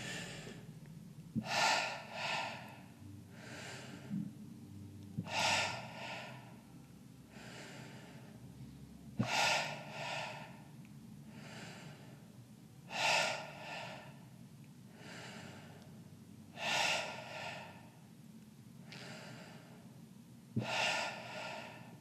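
Deep inhales during breathwork: about six strong, audible in-breaths spaced evenly, roughly four seconds apart, with softer breath sounds between them. The breathing is quiet and heard alone, with no talking.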